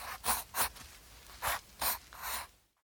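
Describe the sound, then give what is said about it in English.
A pencil scratches across paper while someone draws a man, making five short, soft strokes with pauses between them. Silence follows at the end. “Let's draw a man. Draw his head. Draw his arms and legs.”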